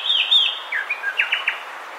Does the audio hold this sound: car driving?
no